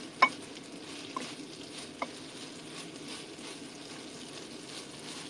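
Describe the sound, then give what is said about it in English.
Meat and beans fry together in a pan with a faint, steady sizzling hiss, broken by three soft clicks as they are stirred. “I like putting the beans with the meat. I know a lot of people separate them, but I like cooking them with the meat because they get more flavor.”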